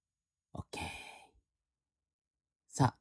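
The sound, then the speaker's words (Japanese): Deep breathing during a guided meditation: a brief breathy sound, then a long, soft rush of air lasting under a second, a quiet pause, and another short breath at the end. “それでは一回深呼吸してください。”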